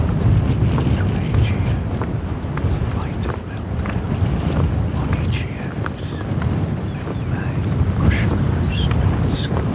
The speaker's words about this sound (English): Wind southeasterly 4, 10 degrees Celsius.